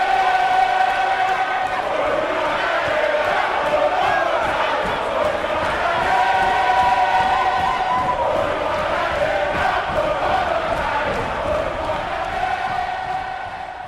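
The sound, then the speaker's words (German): Concert audience cheering and roaring in a loud, unbroken wall of crowd noise that holds steady for the whole stretch and eases only slightly near the end. “Das Publikum tobt und scheint vergessen zu haben, dass der eigentliche Star des Abends noch kommen soll.”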